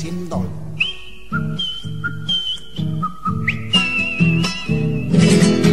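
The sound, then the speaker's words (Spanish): A person whistles a short, lilting folk-style tune with clear, sustained notes that step and slide between pitches, accompanied throughout by steady, rhythmic lower tones. “se ganó el corazón de la Próspero Molina con el silbidito”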